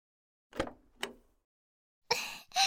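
A door opening: two sharp knocks or clunks, then two louder rasping, rattling bursts a moment apart, with quiet gaps between.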